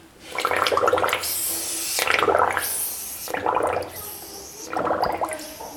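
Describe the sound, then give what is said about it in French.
A voice imitates an old hand-operated petrol pump filling a car, each stroke emptying a five-litre tank. Four rhythmic bursts of gurgling, sloshing mouth noise are separated by short breathy pauses. “Il y avait une pompe à essence. Le tank, ses 5 litres, se vidait dans la voiture. Il remplissait les autres 5 litres. Il fallait pomper comme ça.”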